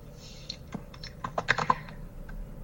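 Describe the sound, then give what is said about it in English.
Typing on a computer keyboard as a message is entered into a chat: many quiet, uneven key clicks in a short burst, faint and without talk. “Awkward silence as I type this into the chat”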